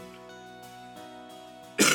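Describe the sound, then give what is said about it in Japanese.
A single sharp cough from someone with a cold bursts out at the very end, following a steady, faint tonal hum. “まあもうこの咳もね、風邪ひきましたって言った後咳するのもどうかと思うけど”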